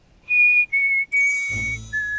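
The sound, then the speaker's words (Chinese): Casual, unhurried whistling: a few long, clear whistled notes, the second slightly lower than the first. A broad background swell of noise rises partway through. “白鹤怀则仰头看着天，漫不经心地吹起了口哨”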